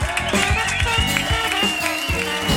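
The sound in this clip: Audience applause at a live blues show, a dense steady clatter of clapping that runs throughout under a voice talking.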